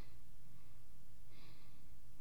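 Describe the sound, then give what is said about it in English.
Heavy breathing from a person lying down comes as a steady breathy rush, with one louder, sharper snort-like breath standing out midway. “I'm just gonna lay here and breathe for a while.”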